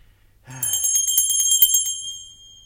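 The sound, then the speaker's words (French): A small hand bell rung in a stage comedy gives a bright, high jingling trill that runs continuously for about a second and a half, then fades away. “ils n'entendent point et ma sonnette ne fait pas assez de bruit.”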